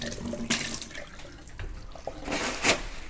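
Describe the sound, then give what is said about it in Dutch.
Running tap water rinses a large cup, a steady rushing wash broken by a few louder splashes as the water hits the cup. “Ik spoel even voor de zekerheid die grote beker van mijn kleine ook.”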